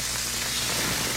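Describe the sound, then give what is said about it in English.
Smash burgers sizzling on a grill, a steady, bright hiss with crackling texture and no pauses, heard alone for just over a second. “Fresh, juicy, award-winning smash burgers are sizzling right now at JC's North on the corner of Rockton and Riverside.”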